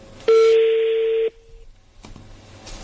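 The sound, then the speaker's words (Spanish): A steady telephone keypad tone sounds while a number is redialed for a prank call after an unanswered attempt. It holds loud and even for about one second, then cuts off abruptly, leaving only faint background noise. “A ver, marco de nuevo.”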